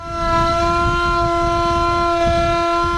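A wartime air-raid siren sounds the general-danger alarm at an anniversary commemoration in Mostar by the Neretva, holding a loud, sustained, steady tone with strong harmonics over a low rumble and no voices.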